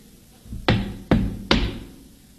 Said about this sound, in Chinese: 待我上前叩我门